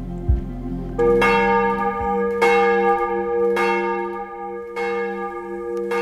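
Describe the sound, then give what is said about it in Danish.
Church bells of Copenhagen's Church of Our Lady ring for morning service with slow, heavy strikes about a second apart. Rich metallic overtones hum on between strikes, and no other sound is heard. “Der ringes til morgenandagt fra Vor Frue Kirke i København.”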